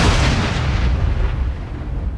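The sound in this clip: A loud boom of thunder from a close lightning strike over hills and a valley opens with a broad crash, then rolls on as a sustained low rumble while the brighter tones fade away.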